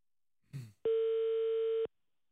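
A telephone ringback tone on an unanswered call: one steady, evenly pitched ring held for about a second, preceded by a brief rustling burst, with silence around it.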